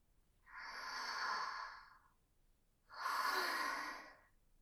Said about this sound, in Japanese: 落ち着いて深呼吸。深呼吸。